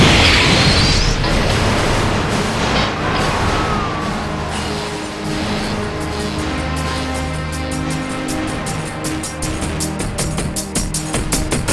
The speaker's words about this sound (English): What the hell is this thing? It's a bomb. It's a... boom.